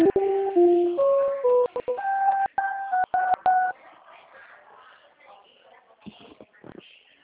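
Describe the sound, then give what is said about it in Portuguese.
Telephone keypad tones beep in a quick run of short pitched notes as a dropped call is redialed, then give way to faint, near-silent line noise with a few soft clicks. “A ligação caiu na hora que você transferiu para o Jailson. Vou tentar mais uma vez, ok?”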